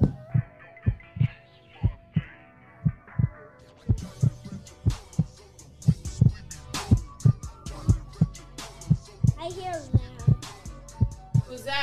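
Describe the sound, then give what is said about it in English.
Heartbeat thumps in a steady, even rhythm, many low pulses repeating about twice a second, with tonal music and a voice layered over them partway through. “I hear a heart. It is a heartbeat.”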